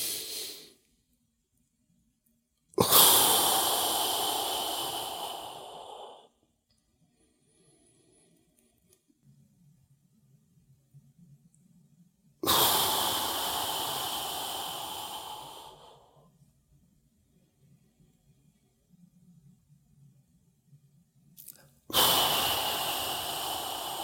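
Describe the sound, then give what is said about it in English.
Long, breathy exhalations blown out around the tongue, its tip held against the ridge behind the upper front teeth during yogic breathing. Each steady hiss lasts several seconds, and quiet pauses with a faint low hum fall between them. “you're asked to keep your tongue in the yogic position, which is touching the tip of your tongue to the ridge of tissue behind your upper front teeth, like that. So you blow air out around it.”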